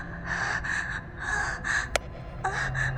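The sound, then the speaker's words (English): A human voice pants rhythmically in quick breathy huffs that come in pairs, about six in all. A sharp click falls near the middle. “Pant if you want it”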